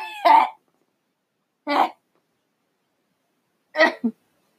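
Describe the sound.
Coughing to clear mucus from the throat: three short, harsh bursts separated by pauses, the last followed by a quick second hack.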